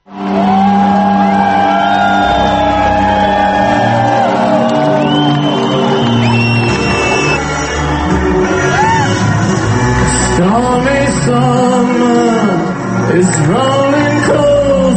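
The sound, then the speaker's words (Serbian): A crowd at the Exit music festival in Novi Sad whoops and shouts, loud and unbroken throughout, with long wavering cries that rise and fall in the second half. “A sinoć je u Novom Sadu otvoren 13. Exit. Muzički festival prve noći posjetilo je više od 30.000, uglavnom mladih.”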